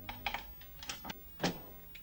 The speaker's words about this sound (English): walks slowly down a hotel corridor and bends to open a door